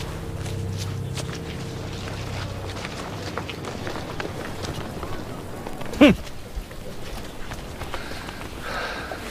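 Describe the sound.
Footsteps of a few people walking away, a quick run of many soft steps with a single heavier thud near the end.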